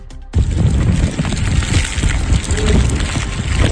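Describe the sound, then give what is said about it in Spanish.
Wind blowing as snow falls at Valdezcaray in the Sierra Riojana, a dense, roaring rush that starts abruptly and then holds loud and steady, with no clear pauses. “Es el sonido del viento y la nieve cayendo en Valdezcaray”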